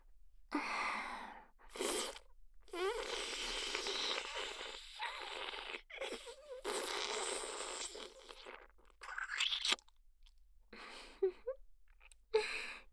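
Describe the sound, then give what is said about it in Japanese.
Soft, wet sucking and slurping mouth sounds imitate a vampire drinking blood in a roleplay. The sips and breaths come quietly and irregularly. “今日は緊張のせいか、少しだけスパイシーな味。君の血は飲むたびに、その美味しさにうっとりしてしまう。”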